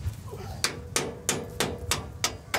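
Sharp, ringing hammer blows knock a metal bolt back into place on farm machinery during the wheat harvest. A regular series of evenly spaced strikes stands out over a low, rumbling background.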